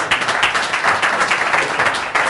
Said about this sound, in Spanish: Muy bien, pues nada. Un aplauso para ellos.